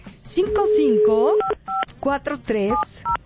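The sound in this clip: Telephone keypad tones sound as a phone number is dialed, several short, steady beeps scattered between bursts of talk as a person speaks over the dialing.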